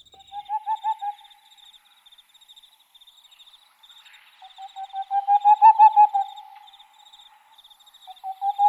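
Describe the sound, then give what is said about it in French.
A Tengmalm's owl calls in rapid runs of soft, mellow hoots, three bursts that swell and fade in loudness, over a faint, steady high insect chirping. “Toujours pas moi. Là, on est sur la chouette de Tingmalm, connue pour son chant mystérieux.”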